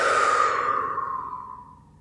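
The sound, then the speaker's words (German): A deep breath is let out as a long, audible sigh during a guided breathing exercise, starting full and airy, then falling in pitch and fading away over about two seconds, with no voice over it. “Fühl jetzt in dich rein, in diesem Moment, fühl in dich rein. Atme mal tief durch.”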